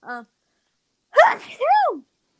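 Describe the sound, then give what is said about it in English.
One loud human sneeze with a voiced, drawn-out tail that rises and falls in pitch; a brief voice sounds just before it. “bless you”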